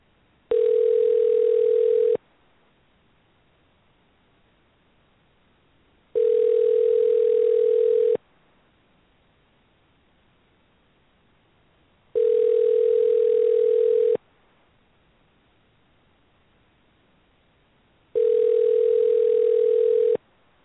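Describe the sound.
Telephone ringing tone heard after dialing out from a switchboard: four evenly spaced steady tone bursts, each about two seconds long, separated by longer silences, with no voices.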